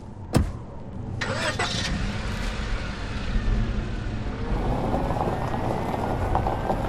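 An SUV reverses a few yards across desolate open ground and drives off: a sharp click, then a steady engine rumble that holds on to the end.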